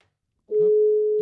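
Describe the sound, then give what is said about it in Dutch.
A telephone ringback tone as a call is placed: a brief silence, then one steady, low, single-pitched tone that starts suddenly and holds evenly to the end. “maar we gaan hem bellen.”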